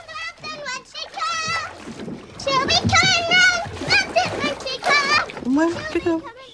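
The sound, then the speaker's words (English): Splashing of bubbles in bath water by a child, heard under near-continuous talk that includes a young child's voice. “splashing bubbles around in the bath”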